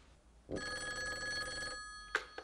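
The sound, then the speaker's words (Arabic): Telephone bell ringing in an Egyptian radio drama: one sustained electric ring lasting a little over a second, followed by two short, sharp clicks. “عادل تليفون على شانك.”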